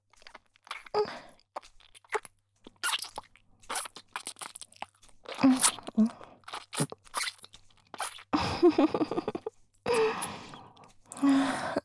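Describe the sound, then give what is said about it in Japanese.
ASMR ear-eating mouth sounds: soft wet smacks, licks and crunchy clicks come in irregular bursts between short silences, with breathy sighs and gasps mixed in. “じゃあまずこっちのお耳からいただきます”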